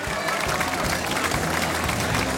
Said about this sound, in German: Wenn Villacher Kirchtag ist, einen Applaus weit über Kärnten hinaus.